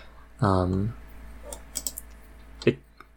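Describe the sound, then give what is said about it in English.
Computer mouse clicks on a video: a brief voice comes first, then a few faint, sharp clicks follow in a loose cluster and one last slightly louder click. “I'm gonna click on the video he sent us. Right? Okay. So it's a, if I click on it, it says an unlisted video, but it has 7,000 views.”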